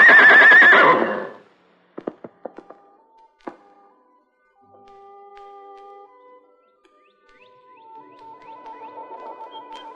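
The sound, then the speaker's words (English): A loud horse whinny from a wild white stallion opens a radio drama effect, followed by a few sharp hoof knocks and then quiet, faint steady tones. “But the fury of those hammering hoofs could not be withstood.”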